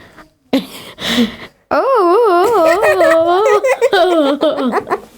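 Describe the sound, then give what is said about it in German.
A child's voice imitating the Very Hungry Caterpillar with a stomach ache: a few short vocal bursts, then a long, loud moaning wail whose pitch wobbles up and down in waves. “In der Schule lesen wir gerade die kleine Raupe Nimmersatt. Ich möchte euch vormal machen, wenn sie Bauchschmerzen hat.”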